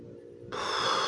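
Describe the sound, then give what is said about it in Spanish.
One deep, breathy human breath rises abruptly after a short quiet moment and stays airy and fairly soft to the end. “Es que cierra tus ojos. Respira profundo.”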